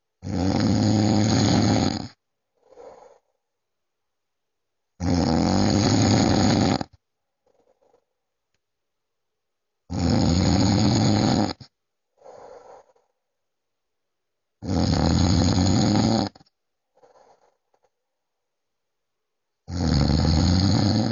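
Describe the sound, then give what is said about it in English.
A sleeping man snores loudly in a slow, steady rhythm: five long, rasping inhalations roughly every five seconds, each followed by a short, softer exhaling snort, with silence between. “I recorded this when my dad was asleep. He snores a lot.”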